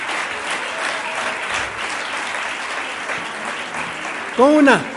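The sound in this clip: Sustained applause from an audience, dense and steady for about five seconds, ending with a short, loud, tonal whoop over the clapping.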